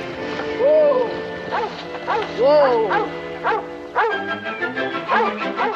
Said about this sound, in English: The boy stops as a rabbit comes running from a thicket of trees, chased by a yellow dog.